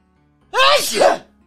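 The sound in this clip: A single loud sneeze bursts out after a moment of near silence, a sharp breathy explosion lasting well under a second before fading out.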